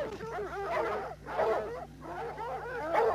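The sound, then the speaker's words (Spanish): A hound bays and yelps excitedly at a raccoon up a tree. Several fairly faint bursts of wavering, high-pitched barks and whines are separated by brief pauses. “Miren ese diablo de perro.”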